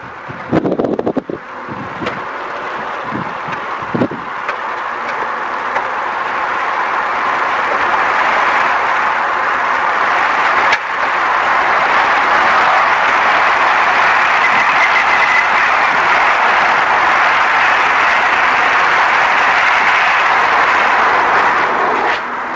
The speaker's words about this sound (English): everything seems pretty good so far. Temperature seems to be holding steady. I'm going to take a little test drive up the road